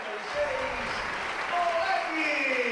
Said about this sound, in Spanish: Ovación para Toletti